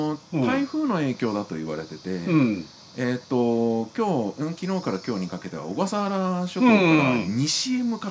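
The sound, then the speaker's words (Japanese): Cicadas sing outdoors on a windy summer day in a big city, a faint, steady high-pitched drone beneath continuous conversation between people. “こんなセミが鳴いてるけれども、”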